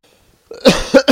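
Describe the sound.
A few harsh coughs in quick succession during a religious question-and-answer lesson, loud and abrupt after a near-silent start, with no talk over them.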